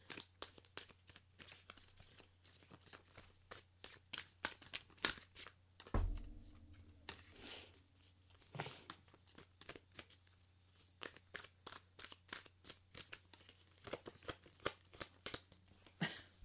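Tarot cards being shuffled and pulled from the deck make many crisp riffling snaps and papery rustles in an irregular rhythm, fairly faint, with one heavier soft thump partway through and no talking.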